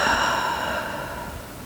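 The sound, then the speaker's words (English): A deep breath exhaled fully through the mouth during a guided meditation: one long, soft rush of air, steady at first and slowly fading away. “Take a deep breath in through your nose and exhale it completely through your mouth.”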